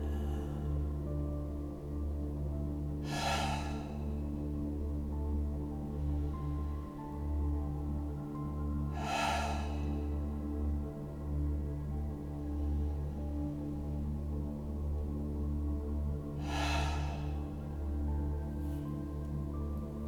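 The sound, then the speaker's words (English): Slow deep breathing during a guided body-awareness meditation: three soft, airy breaths spaced evenly several seconds apart, each rising briefly over a steady low hum, with no talking. “Letting the breath flow out of you, fall out of you. Taking a few breaths like this.”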